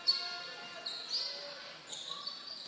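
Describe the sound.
A few faint basketball bounces ring out as a player dribbles at the top of the key on a court during a high school game, with soft background noise between them.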